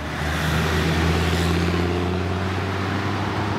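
A heavy truck serving nearby distribution centres drives along the road with a steady, loud engine rumble and a low drone throughout, without talk.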